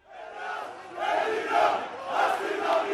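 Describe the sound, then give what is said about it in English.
A crowd of protesters in Athens marching against austerity budget cuts, many voices chanting and shouting together in loud rhythmic surges that rise and fall several times. “Hundreds of thousands have marched in protest and walked out on strike.”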